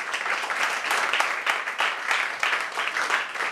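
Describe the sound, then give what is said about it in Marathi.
Audience applause for nursing college students in uniform: a dense crowd clapping steadily throughout, with small surges in the rapid patter and no break. “त्याच्यामुळं तुमच्या सगळ्यांसाठी एकदा जोरदार टाळ्या.”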